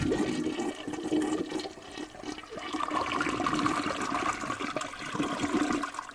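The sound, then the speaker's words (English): A weak, low-flow toilet flush: a faint, steady gurgling wash of running water lasting about six seconds, with no strong whooshing surge. “you should really clean that out. That sounds dirty. Like it doesn't have any flow. You expect like a big whooshing flush in there.”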